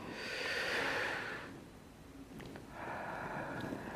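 Deep breathing: two long, soft, airy breaths drawn in and let out, separated by a short quiet pause.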